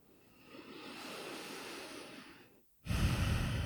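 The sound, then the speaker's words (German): Slow, calm breathing during a meditation: one long, soft, airy breath rises and fades, then a brief silence, then a louder, fuller breath begins. No voices are heard. “Und atme in liebevoller Annahme mit all dem, was jetzt ist.”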